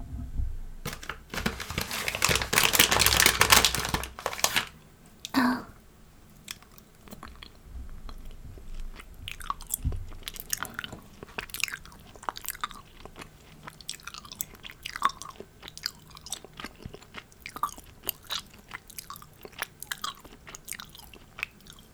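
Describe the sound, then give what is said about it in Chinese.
Chewing on a QQ gummy candy: a loud burst of wrapper crinkling comes first, then many small, sticky, wet chewing and biting clicks in an irregular rhythm, close and with no talk. “姐姐喂你吃一个 QQ 糖吧。”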